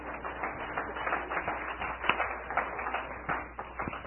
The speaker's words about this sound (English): Didn't mean to beat on that. That's going to sound good on the tape when I beat my chest.